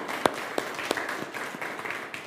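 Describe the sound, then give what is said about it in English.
Applause from a gathering thanking the people who helped with the work, faint steady clapping with a few sharper single claps standing out. “So let's give a round of applause for everyone who's here.”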